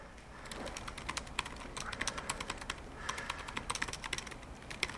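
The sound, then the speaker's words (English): Rapid typing on a computer keyboard while entering a comment: many quick, crisp keystroke clicks in an uneven rhythm over a steady low background, with no voices. “You can also type a comment.”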